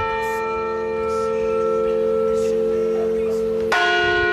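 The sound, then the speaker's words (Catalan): A church bell tolls the death knell with a sustained, humming ring of layered tones. A fresh strike near the end renews the sound. “Aquest és el toc de difunts”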